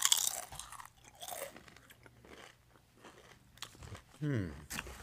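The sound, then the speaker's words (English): Crunching bites into a tortilla chip dipped in cheese: a few sharp, crisp crunches, then softer chewing, with a short voiced murmur near the end. “I'm going to start off first chip. Get it in the cheese there.”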